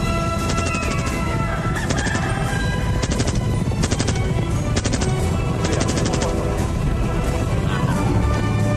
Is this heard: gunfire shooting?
yes

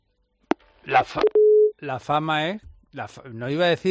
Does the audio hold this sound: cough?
no

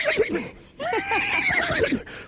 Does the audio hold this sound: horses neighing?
yes

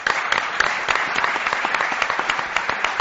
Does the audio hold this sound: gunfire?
no

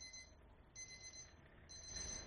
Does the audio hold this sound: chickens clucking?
no

